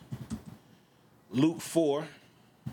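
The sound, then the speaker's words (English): Computer keyboard keys clatter as a Bible passage is typed into Logos Bible software, a quick run of light taps, then a voice speaks, followed by one more tap. “So you remember when I said you can type in a passage and then just click go? Watch this now.”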